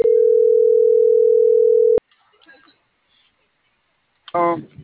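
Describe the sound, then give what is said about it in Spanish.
A telephone being dialed: a steady, loud dial tone holds for about two seconds, then a sharp click cuts it off, followed by faint rustling and a brief voice at the end. “Ya la estoy marcando.”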